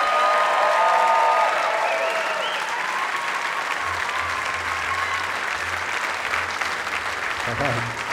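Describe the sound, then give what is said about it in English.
Audience applause at the Newport Folk Festival 2018 welcoming a performer: loud, sustained clapping with whistles and cheers early on, easing slightly but continuing throughout. “So keep your hands together and give a Newport Folk Festival welcome to Tuck Andrus.”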